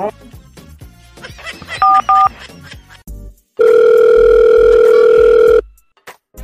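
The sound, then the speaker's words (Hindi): A telephone is dialed while people talk: two short keypad beeps sound, then a loud, steady dial tone holds for about two seconds before cutting off. “हाँ बुला phone करो phone करो”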